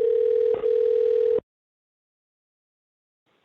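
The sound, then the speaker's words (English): Voicemail recording tone: a steady, mid-pitched electronic beep that holds for over a second with one brief flicker, then stops abruptly into silence before a short sound at the very end. “At the tone, please record your voice message.”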